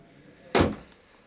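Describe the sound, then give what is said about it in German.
A door is shut in a back room with a single solid thud: one brief, loud impact that quickly fades to quiet, with no voices. “Mach die Tür zu”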